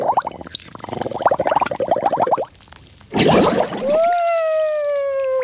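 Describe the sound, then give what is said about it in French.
Water splashing and gurgling in a bathroom sink, a bubbly, rapid sloshing that runs for a couple of seconds, pauses, then bursts into a brief noisy gush before a steady, high tonal sound takes over. “Mais qu'est-ce que tu fais à barboter dans le lavabo ?”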